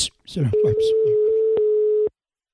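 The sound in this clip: A ringback tone on an outgoing telephone call holds as one steady, low, continuous tone for about a second and a half. A brief burst of voice comes just before it.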